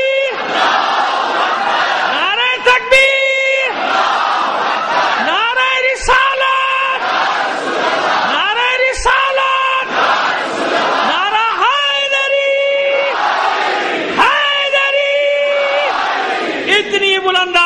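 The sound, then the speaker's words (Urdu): At a religious gathering, a large crowd roars its chanted reply to the Nara-e-Takbir slogan. Loud shouted bursts of many voices come back several times in a repeating rhythm, each followed by a brief pause. “تو لہٰذا اب میں آپ سب کی نمائندگی میں نعرے لگاؤں گا اور دیکھتا ہوں میرا نعرہ زوردار ہوتا ہے یا آپ کا جواب. نعرہ تکبیر,”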